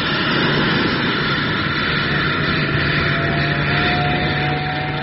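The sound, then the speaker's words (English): Loud, steady roar of an aircraft taking off, a continuous broad rush with a thin whining tone that climbs slightly in pitch partway through; no talk. “Yes, all right by the feel of it. Yes, I reckon it's a perfect takeoff.”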